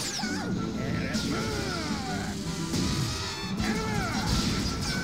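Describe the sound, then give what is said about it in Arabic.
Chikorita's Razor Leaf attack lands in a Pokémon cartoon with crashing, whooshing effects and sweeping tones. Voices speak over the effects. “رائع، والآن الورقة الحادة.”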